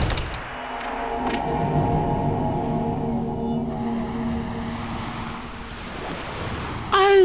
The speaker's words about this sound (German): Allmächt, was ist denn da los? Wo gibt's denn bei uns so viel Wasser? Ein richtiges Meer.